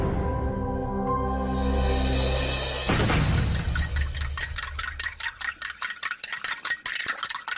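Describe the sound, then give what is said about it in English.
Whisking in a kitchen: fast, steady ticking strokes of a whisk against a bowl rise as a loud, sustained tonal drone cuts off, then continue alone in a brisk, even rhythm. “He's whisking. He's whisking.”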